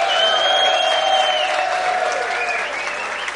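A short burst of audience applause, brisk and evenly loud throughout, easing only slightly in the final moment.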